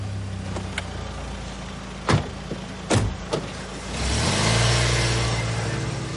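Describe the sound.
A car pulls up at the entrance to a residential zone: a few sharp knocks, then a low engine hum that swells and holds steady toward the end.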